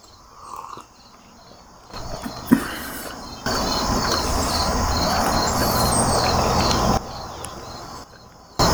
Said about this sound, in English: it's a lot of crickets in the evening. Crickets all the time. 100% crickets.